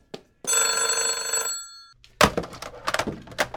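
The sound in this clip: A telephone bell rings in one long, loud trilling burst, then stops. A few knocks and clattering thuds follow.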